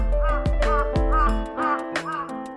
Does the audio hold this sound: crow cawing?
yes